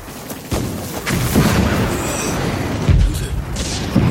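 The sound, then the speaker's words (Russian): Explosions on a film battlefield: low booms and thuds rise out of a continuous rumbling, noisy background, a few heavier hits standing out. “ползет по полю боя, рядом раздаются взрывы.”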